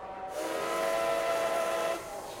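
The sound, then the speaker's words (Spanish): A train whistle sounds as a train departs a Barcelona terminus station bound for Madrid, a sustained, fairly faint, steady whistle of about a second and a half over a constant steam-like hiss. “Atención, último aviso. El tren va a efectuar su salida con destino a Madrid.”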